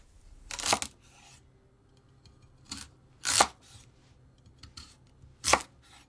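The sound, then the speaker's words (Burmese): A knife slices a daikon radish into rings about 2 cm thick, making a few sharp, crisp cutting thuds at irregular intervals. The cuts are fairly quiet, with faint handling noise between them. “ပထမဆုံးမုံလာဥကို2 cm အထူးအကွင်းလိုက်လှီးပါ”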